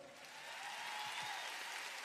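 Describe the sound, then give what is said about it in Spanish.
Concert audience in Santiago applauding an orchestra: a steady, faint wash of clapping that swells slightly and holds without a break. “con una orquesta que pide un aplauso.”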